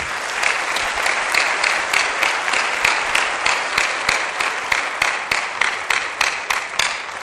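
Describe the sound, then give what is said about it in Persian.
An audience applauds guests at an IT networking gathering with loud, steady, sustained clapping. A few sharper individual claps stand out along the way, especially toward the end. “اول یه دست خیلی خوب برای مهمونامون بزنید.”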